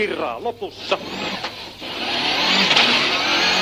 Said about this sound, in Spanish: Vamos a meternos dentro del coche de Tommy MacKinnon.